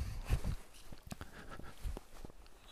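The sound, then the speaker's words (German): Footsteps of a hiker in walking boots going steeply downhill at night in a forest in the Schwarze Berge, heading down from a mountain hotel: a few irregular, soft crunching steps, faint and without talk. “Ja, ich gehe hier gerade steil runter, jetzt nicht mehr so steil, jetzt geht es wieder, weil es ja immerhin ein Berghotel ist und es steht natürlich oben auf dem Berg. Und den muss ich jetzt wieder runter.”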